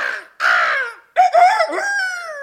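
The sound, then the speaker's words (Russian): A voice imitates a crow, an old woman's cry in a Japanese folk tale: three harsh, raspy caws, the last one long and drawn out, loud and with no other sound. “Старуха кричит, как ворона.”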